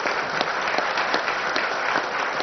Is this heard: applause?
yes